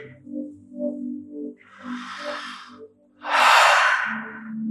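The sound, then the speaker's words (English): Deep breathing during a guided breathwork session: two long, airy breath sounds, the second louder and fuller, over a steady low humming drone. “Vibrant inhales and relaxed exhales. Feels good to breathe.”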